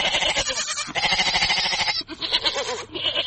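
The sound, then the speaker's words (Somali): Goats and sheep bleat at a busy livestock market in Mogadishu's Dayniile district. Many loud, overlapping cries sound almost without pause. “Halkani waa suuqa xoolaha ee degmada Dayniile.”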